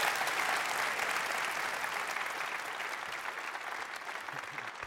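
Audience applause at a morning church service as a pastor is welcomed to the stage, a thick, continuous clapping that eases off slightly toward the end.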